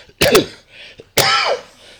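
Someone clears a tickle in the throat with two harsh, rasping bursts, the second slightly longer, separated by a brief pause. No speech accompanies them.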